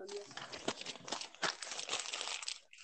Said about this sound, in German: ich habe so eine Mini-Kiste mit doppeltem doppelten Boden. Boden rausholen.